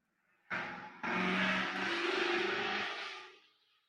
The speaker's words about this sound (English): My neighbor, he always, holds the gears extra long going by the house to make sure I can hear.